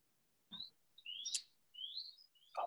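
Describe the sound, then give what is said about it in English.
Birds chirp in a backyard, giving a few faint, high, short rising tweets in irregular bursts with quiet gaps between them. “You can hear the birds chirping in your backyard.”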